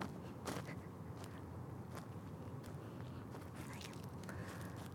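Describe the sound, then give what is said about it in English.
Footsteps crunching on wood chips at a playground at midnight, faint irregular crunches over a steady background hiss. “These are wood chips. And you're hearing me walk on.”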